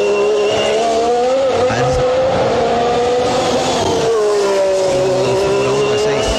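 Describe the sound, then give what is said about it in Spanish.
A V6 engine revs hard, a loud, strained, buzzing drone that holds steady with a wavering pitch, dips briefly around the middle, then climbs again, with no talk over it. “Es un V6, muy bien, es un V6, ya.”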